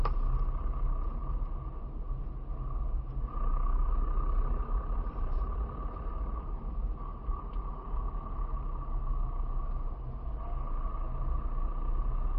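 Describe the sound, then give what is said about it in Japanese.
Road traffic stuck in a heavy jam: a steady, dense rumble of idling and creeping vehicles that holds at an even loudness from start to finish, with no talk over it. “だいぶ渋滞ですね。”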